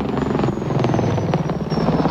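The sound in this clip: Attack helicopter noise, a loud, steady rotor drone with a dense, throbbing low rumble held evenly throughout.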